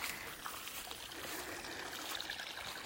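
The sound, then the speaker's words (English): Water trickling at a garden pond stocked with guppies, a faint, steady, even wash of noise that runs unbroken through the whole clip. “Here we are at the pond. Oh, I want to clean it. There are little guppies in there.”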